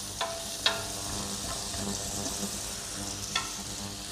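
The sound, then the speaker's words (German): Spices toasting in a pan give a steady, bright sizzle that hisses continuously throughout, broken by a few sharp clicks as the pan or spoon is stirred. “Jetzt hörst du, wie es schon langsam losgeht. Und wie gesagt, dann bleiben wir hier dabei, um zu verhindern, dass die Gewürze anbrennen.”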